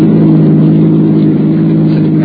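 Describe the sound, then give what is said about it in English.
A car engine drones loudly and steadily as the car runs in high gear toward a curve, its low, rich hum holding without a break from start to end. “Now, put the car in high.”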